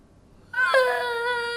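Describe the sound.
A child's crying starts after a short quiet moment and holds as one sustained, tonal, whining wail that stays fairly soft.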